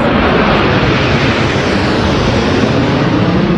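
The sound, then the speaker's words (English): Military aerobatic jets fly in formation, a dense, loud, unbroken roar of engine noise spread evenly across the whole clip with no pauses. “A familiar sound for anyone in Saskatchewan and indeed across this country. The snowbirds flying in perfect formation”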